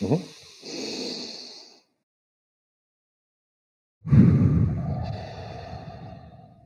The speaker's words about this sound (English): Let's take a big deep breath together. I feel like not too many people do this first thing in the morning. Yeah, absolutely. So. You ready? You can breathe audibly out into the microphone.